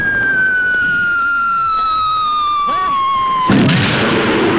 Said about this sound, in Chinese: 日本鬼子又向我第一师发起了进攻。